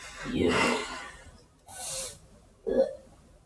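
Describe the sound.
A voice imitates someone choking while held by the throat, making three strained, gurgling and hissing bursts separated by short pauses, the last the sharpest.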